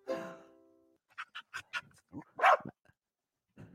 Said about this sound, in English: that was just my dog running through this podcast